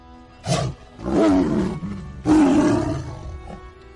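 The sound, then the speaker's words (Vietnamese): A tiger roar sound effect, for a phantom red tiger, comes as a few loud, rough, growling bursts, the longer ones swelling and trailing off, with no talking. “hư ảnh một con mãnh hổ màu đỏ xuất hiện bên ngoài loa, ngửa mặt lên trời gầm lớn một tiếng, uy vũ vô cùng.”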